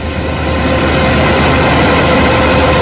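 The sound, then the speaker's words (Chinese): A combine harvester works at full power in a golden corn field, giving off a loud, unbroken heavy engine drone with a dense mechanical roar that holds steady throughout. “走进山西大同市云冈区西韩岭乡泰善村，连片玉米田里满目金黄，收割机正开足马力作业，转运车辆紧随其后”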